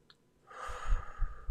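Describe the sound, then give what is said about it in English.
A single human breath, taken as a relaxation cue before affirmations: a soft, airy rush of breath noise that swells in about halfway through and continues to the end, with no speech. “So before we begin this, take a breath in”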